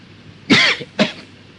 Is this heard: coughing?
yes